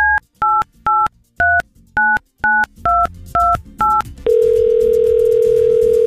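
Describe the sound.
Telephone keypad dialing as a call is placed: a run of about nine short, evenly spaced beeps at shifting pitches, then a loud steady continuous line tone that holds to the end.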